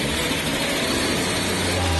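Chevrolet Chevette car engine running loudly, a dense steady roar with a low hum that climbs slightly toward the end.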